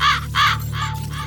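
Raven cawing: a few harsh, hoarse caws in quick succession, loud and raspy, with a steady low hum underneath.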